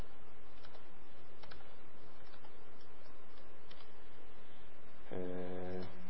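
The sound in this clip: Faint, scattered keystrokes from code being typed on a computer keyboard, as soft irregular taps over a quiet background. A short tonal hum comes in near the end.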